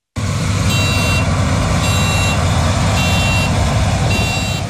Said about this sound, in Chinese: 在黑龙江双鸭山北大荒集团红卫农场智慧农业示范区，三台无人驾驶收割机正在田间协同自主作业。